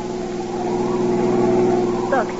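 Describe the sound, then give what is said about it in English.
Steady engine hum of a car driving over a muddy road, a continuous low rumble with a layered tone that holds even throughout. “Even now, he and his wife are driving over the muddy road up to the house.”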